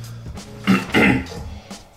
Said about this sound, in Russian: Откашливаться – это обязательно, кто не понимает.